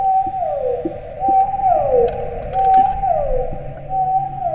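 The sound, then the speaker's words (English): A blue whale vocalizes in several repeated moaning calls, each a tonal sweep gliding downward in pitch, with brief gaps between them and a few faint clicks. “It is a whale. It's a blue whale.”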